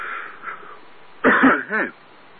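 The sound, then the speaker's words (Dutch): A tickle in the throat brings on a short bout of throat clearing: two rough, gravelly bursts close together, the first longer than the second. They stand out over a thin, quiet background hiss. “Kriebel in de keel, vervelend.”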